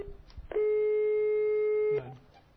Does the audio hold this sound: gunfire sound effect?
no